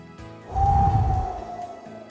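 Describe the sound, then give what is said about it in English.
A single deep breath taken before a prayer, a swelling, airy rush that lasts about a second and then fades slowly. “So let's take a good deep breath and have a prayer.”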